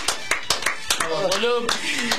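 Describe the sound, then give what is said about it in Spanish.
Hand clapping breaks out in short, sharp bursts, a quick irregular run of many claps, with a voice calling out partway through. “Un aplauso.”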